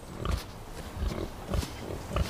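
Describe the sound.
Wild boar grunting: four low, rough grunts spaced at fairly even intervals, each short and throaty, alone with no voices.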